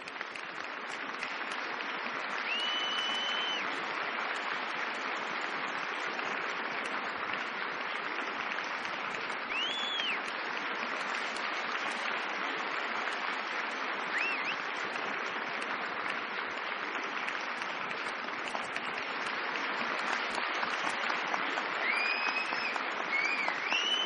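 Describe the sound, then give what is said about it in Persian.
Sustained audience applause at a film award ceremony for the best leading actor: dense, even clapping that continues unbroken for the whole clip, with a few faint whistles rising above it. “بله آقای بهزاد سعیدی بازی زیبای ایشون شایسته بهترین تشویق ها”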